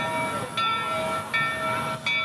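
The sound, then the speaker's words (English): Steam train engines approach on an amusement-park railroad decorated for Christmas, including a vintage Rio Grande Southern locomotive. A steady rumbling hum with tonal ringing swells louder about three times. “Knott's Berry Farm, and right now we're waiting to go on the Calico Railroad. Now you can hear the engines coming right now.”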